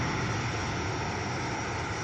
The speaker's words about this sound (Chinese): 随着固定翼反潜巡逻机抵达任务空域